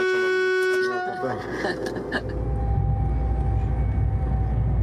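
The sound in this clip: A high-speed train's horn at its opening ride sounds as a steady, harmonic tone for about two seconds, then gives way to a loud, broad rumbling that continues to the end, with talk running throughout.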